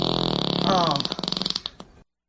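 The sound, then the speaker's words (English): A long recorded fart rips out as a fast train of buzzy pulses, swelling midway, then breaking into slower spluttering bursts before cutting off abruptly. “Was that a fart? Yeah, long rip. Somebody sent that in.”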